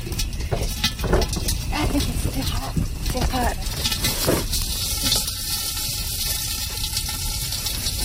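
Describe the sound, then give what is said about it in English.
Popcorn stirred with chopsticks: a steady sizzling hiss scattered with sharp clicks and scraping, under people talking throughout. “What do you need chopsticks for? You gonna eat the popcorn with chopsticks? No, to stir. To stir it.”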